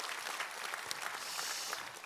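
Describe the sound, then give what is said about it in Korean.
Audience applause for a chamber ensemble with double bass and cello after their performance: faint, dense, continuous clapping with a steady, even texture throughout. “정영근 지휘자 우리 챔버 팀에게 한번 우리 힘찬 격려의 박수 부탁합니다.”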